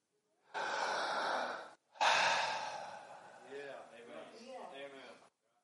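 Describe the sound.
A person breathing: a long, airy inhale, a brief pause, then a longer, louder exhale that slowly fades away.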